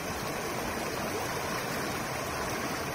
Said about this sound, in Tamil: ஒரு ஆறு ஓடுவது தெரியுதா?